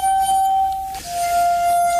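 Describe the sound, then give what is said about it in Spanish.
Musical glasses, crystal wine glasses tuned with water, ring with a pure sustained tone, holding one steady note and then sliding to a slightly lower note midway, with faint overtones above. “Luego hay instrumentos que realmente emiten sonidos extraños e inquietantes. Por ejemplo, las copas de cristal.”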